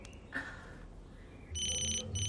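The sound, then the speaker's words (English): A telephone rings in a room: a bright electronic ringtone starts partway through after a quiet stretch and continues to the end in two loud bursts separated by a brief break. “In his room, Woody answers the phone.”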